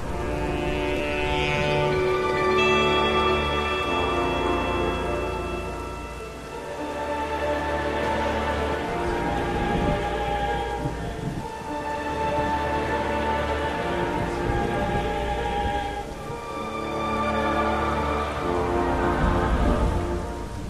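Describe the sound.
Steady rain pours without break, a dense, even hiss that swells and eases slightly, with low sustained tones running beneath it.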